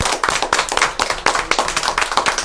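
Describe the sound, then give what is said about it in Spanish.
A group of older adults gives a round of applause at a visit gathering: many sharp, distinct claps in quick, fairly regular succession, loud and with no talk. “Así que bueno, este aplauso es para ustedes. Muchas gracias.”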